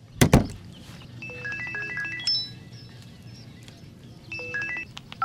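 Phone keypad tones as a number is dialled to call a taxi. A soft thud comes first, then a run of short, high beeps, a brief gap and a few more beeps, all fairly faint.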